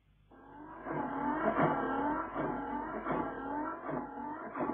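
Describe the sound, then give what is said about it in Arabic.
A car engine revs repeatedly after a repair, running smoothly. It gives a loud, steady series of rising and falling revs with a rough mechanical roar and no voices. “الموتور بقى زي الساعه”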